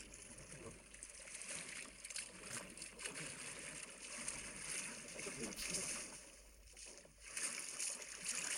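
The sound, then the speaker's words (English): An underwater sloshing sound effect plays as a continuous, churning watery wash. It rolls and surges unevenly at a fairly low level throughout. “That was a 15-second sound effect of sloshing. We understand what a slosh is.”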